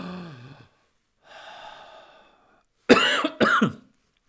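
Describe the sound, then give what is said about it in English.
A deep inhale taken on a count, then two sharp, loud coughs in quick succession; a brief vocal sound comes before the long, breathy intake of air. “take a deep breath on the count of three. Ready? 1, 2, 3, deep breath.”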